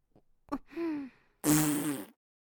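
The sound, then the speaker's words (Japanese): Cute, girly little fart: a tiny tick, then a short soft squeak, then a louder breathy burst with a raspy, tonal edge, all quiet and with no talk around it. “あなたはどういうおならが好き？こういう女の子らしい可愛いおなら？”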